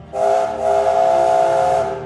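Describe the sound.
A steam engine whistle gives one long, loud, shrill blast with a breathy hiss, briefly dipping near the start before holding steady to the end.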